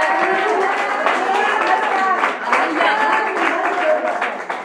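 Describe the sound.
A church audience applauds and cheers in praise, with dense, steady clapping throughout and voices raised above it.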